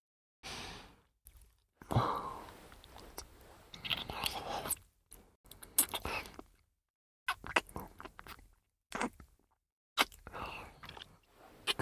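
Close chewing and eating of a creamy food, wet mouth bursts in irregular clusters separated by short silences, mixed with breathy sighs and exhales.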